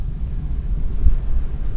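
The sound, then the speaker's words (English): Wind roars through an open car window on a snowy road: a steady, dense low rumble with continuous buffeting and no clear breaks. “Oh, that's windy. That's... I can barely breathe when I open the window.”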